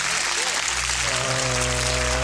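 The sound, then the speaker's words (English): Audience clapping marks the end of a scene, a steady crackle of many hands, with a low tonal drone sounding underneath in the second half. “Why is the audience clapping? Why? And that. Why are they clapping? Because the scene is over”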